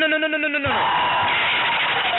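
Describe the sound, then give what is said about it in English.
A canned crowd-cheer and applause sound effect fired from a soundboard button. A short spoken phrase comes first, then a sustained, loud wash of cheering and clapping that holds steady to the end. “I didn't mean to hit that one. I didn't mean to hit the applause button.”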